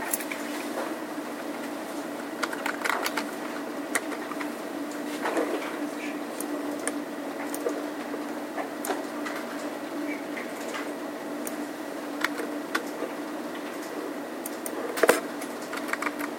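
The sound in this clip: Typing on a computer keyboard: a steady run of many quiet, irregular key clicks, with one louder tap near the end, over a constant low hum.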